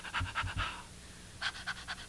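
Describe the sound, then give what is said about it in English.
A person pants rapidly in and out like a dog, as a breathing drill in a singing warm-up. Quick breathy bursts come in two runs separated by a short pause. “Can you pant in and out? That's right, like a dog on a hot day.”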